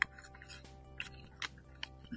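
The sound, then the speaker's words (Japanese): Chewing on a lightly salted snack while eating: faint, crisp crunches and soft mouth noises recur every half second or so, quiet and close. “リリーさんをパクパクいただいてますよ。”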